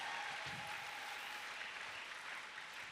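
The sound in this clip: An audience at a Christian conference applauds and acclaims the Lord. The clapping is faint but continuous, an even wash of hand claps with no pauses.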